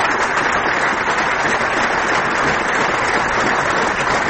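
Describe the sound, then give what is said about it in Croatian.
Prolonged applause and ovations from a gathered audience at the Yugoslav Drama Theatre, bidding farewell to actor Nebojša Glogovac: dense, even clapping that holds loud and steady from start to end, with no voices over it. “Uz 15-minutni aplauz i ovacije okupljeni u Jugoslovenskom dramskom pozorištu oprostili su se od Nebojše Glogovca.”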